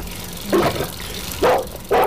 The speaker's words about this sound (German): Vor dem Haus spielte ein kleiner Junge mit einem Schäferhund, der höchstens ein halbes Jahr alt war.